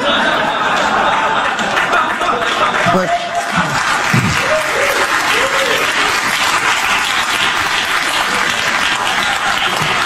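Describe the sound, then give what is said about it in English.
Extended audience applause for a speaker: dense, steady clapping that runs evenly for about ten seconds, with faint voices or chuckles mixed in. “What's what's notable about that? A couple of things. The extended applause”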